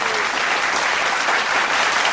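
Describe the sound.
Studio audience applause at a game show with a giant mechanical bull: steady, dense clapping that holds at an even, loud level throughout without pause.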